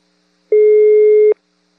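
Telephone ringing tone heard while placing a call: a single steady electronic beep lasting under a second, loud and alone against silence.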